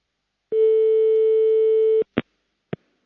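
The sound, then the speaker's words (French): A telephone tone after a call hangs up: one long, steady, clear tone lasting about a second and a half, cut off abruptly, then two brief sharp clicks. “il y a eu du souffle et puis ça a raccroché”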